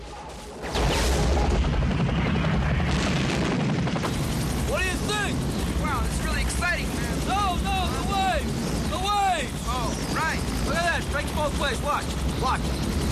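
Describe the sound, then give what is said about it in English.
Heavy explosions and gunfire ring out as Huey helicopters blow up a bridge while rockets fly at them from the jungle in a war battle. Loud booms open the scene, followed by a continuous rumbling, crackling din. “Hueys blow the bridge as rockets fly at them from the jungle.”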